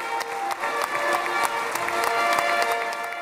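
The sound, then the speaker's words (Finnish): Applause with fanfare rings out in the Israeli Knesset for US President Donald Trump arriving to speak, even clapping from a large crowd with sustained musical tones beneath, moderately faint and steady. “Yhdysvaltain presidentti Donald Trump pääsi alkuviikosta raikuvien taputusten ja fanfaarien saattelemana puhumaan Israelin parlamenttiin Knessetiin.”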